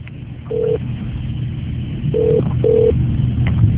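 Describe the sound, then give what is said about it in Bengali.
Telephone tones sound as a new phone call is placed after a dropped line: three short, steady mid-pitched beeps over a muffled, narrow-band hum. “লাইনটা কেটে গেছে, আমরা আরেকটা লাইনে যাচ্ছি, আরেকটা ফোন কল আর কি।”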